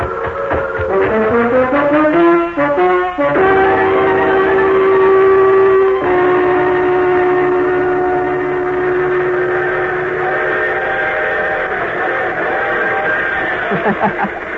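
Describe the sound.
Freight train passing: loud, sustained whistle-like horn tones over a rumbling drone, with the tones shifting early on and then holding steady to the end.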